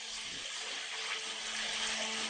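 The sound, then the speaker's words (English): Contaminated milk from a dairy farm being poured down a drain makes a steady, continuous rushing and splashing of liquid. The broad wash holds constant, fairly loud, for the whole span with no pauses. “Now every drop goes down the drain.”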